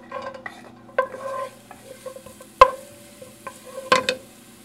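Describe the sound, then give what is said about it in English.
Garlic fries in hot oil in a pan with a soft, steady sizzle while a utensil stirs, striking the pan in a few sharp clinks spread across the stirring. “Put some oil in the pan. Let that heat up, and we'll add the garlic.”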